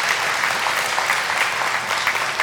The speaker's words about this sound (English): If you're thankful for that, can you give the Lord a hand clap of praise today?